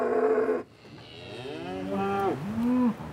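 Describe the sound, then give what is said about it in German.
A breeding bull moos inside a livestock trailer, giving a few loud, drawn-out bellows with rich harmonic tones, ending on a long, lower call. “Jetzt ist der Viehhändler endlich da. Im Anhänger Deckbulle Ivo.”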